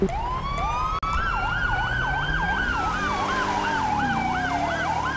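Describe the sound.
Police siren from the video game GTA V FivePD on a code 3 response. A long rising wail slides into a fast warbling yelp and then eases back down, all over a low engine rumble.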